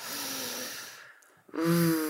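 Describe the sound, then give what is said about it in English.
A group takes a deep breath together during a self-care pause: a long, breathy inhale, then a short silence, then a voiced exhale or sigh. “So, can we all just take a deep breath together?”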